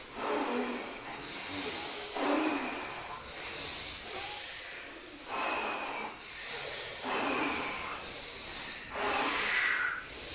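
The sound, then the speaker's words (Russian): Forceful, hissing breaths during a kriya breathing meditation focused on the crown chakra, repeating in a steady rhythm of airy surges that swell and fade every second or two, with no talk. “Мощнее вдох.”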